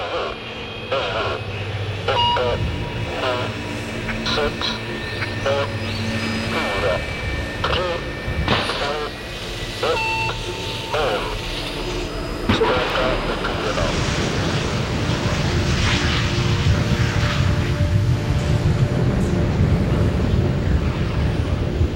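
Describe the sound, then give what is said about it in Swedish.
A rocket lifts off from the ground and climbs away. A steady rumble dotted with brief tonal sounds comes first, then about halfway through it swells into a louder, broad, sustained roar that lasts to the end. “Raketen lyfter från marken och försvinner upp mot himlen.”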